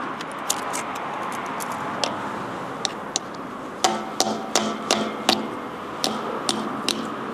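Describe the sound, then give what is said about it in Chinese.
Sharp clicks and knocks come as a fake battery model filled with fine sand is pried open. Scattered taps give way to a busy cluster of cracking snaps in the middle, then a few more near the end. “这个是假的电池模型，电池模型整个外观来看的话是没有任何字样的。现在我们打开一个看一下，”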